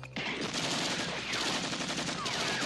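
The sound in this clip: Rapid gunfire from an action film: a dense, loud burst of machine-gun fire that starts abruptly and continues without pause to the end.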